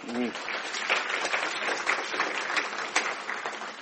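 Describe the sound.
Audience applause welcoming a speaker: dense, sustained clapping from a crowd that stays fairly even and loud throughout, after a brief voice at the very start.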